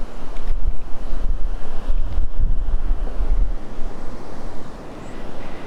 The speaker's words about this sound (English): Wind's getting funneled in here a bit.